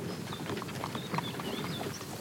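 Horse hooves clip-clop steadily as the animal pulls a cart, a faint, even run of many quick steps with no voices.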